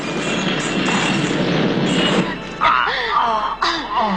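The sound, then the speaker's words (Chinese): A bomb explosion sound effect at a department store in a radio drama: a loud, broad roar that cuts off after about two seconds, followed by agitated voices. “在两人奔出百货公司的最后一刻，炸弹爆炸了。”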